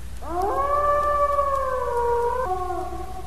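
A single wolf howl, loud and sustained. It rises quickly at the onset, holds a steady tone, then steps slightly lower near the end and carries on.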